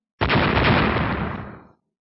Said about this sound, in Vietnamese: Vang tiếng nổ điếc tai